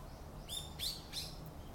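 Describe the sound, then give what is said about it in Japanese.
Bird calls picked up by a microphone aimed at the bird: a few thin, high chirps, faint against a steady background hiss. “もうマイクをですね鳥の方に向けまして”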